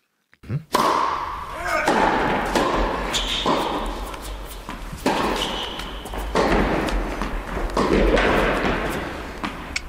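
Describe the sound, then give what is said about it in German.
Indoor tennis hall ambience with many sharp, hollow ball hits and thumps at irregular intervals, over a continuous background hum with people talking. “Hier hört ihr nochmal das ganze Geräusch von der Tennishalle.”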